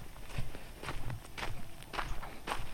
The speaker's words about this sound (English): Walking with a 360 mic.